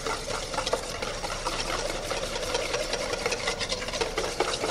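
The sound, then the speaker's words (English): Whisking a vinaigrette of apple cider vinegar, heard as a steady, rapid scraping whir that runs without a break at an even level throughout, with no voices. “And then the apple cider vinegar. And you just start whisking.”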